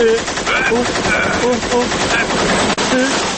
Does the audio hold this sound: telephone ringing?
no

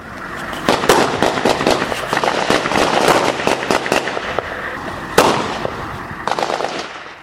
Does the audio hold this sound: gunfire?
yes

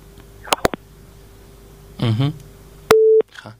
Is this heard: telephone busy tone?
yes

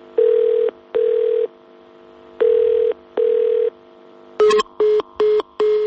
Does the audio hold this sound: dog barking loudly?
no

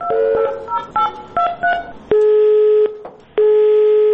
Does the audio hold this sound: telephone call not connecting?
yes

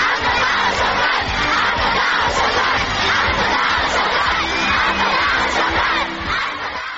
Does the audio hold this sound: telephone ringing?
no

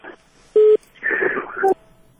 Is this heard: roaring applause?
no

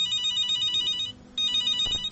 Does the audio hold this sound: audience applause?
no

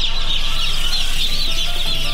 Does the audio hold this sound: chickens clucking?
yes

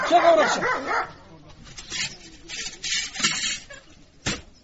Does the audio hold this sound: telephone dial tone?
no

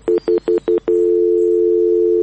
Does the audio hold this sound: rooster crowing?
no

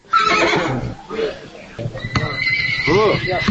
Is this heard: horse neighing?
yes

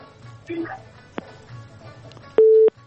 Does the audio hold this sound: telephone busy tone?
yes

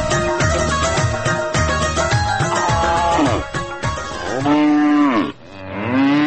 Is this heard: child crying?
no

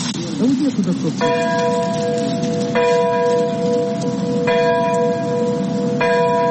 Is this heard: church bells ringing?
yes

